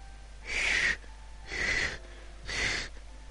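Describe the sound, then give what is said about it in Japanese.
A wheezing breathing sound effect: three raspy, hissing breaths, each a strained burst of air separated by short pauses. “ヒュッヒュッヒュッ、不規則な呼吸音が聞こえてきた。”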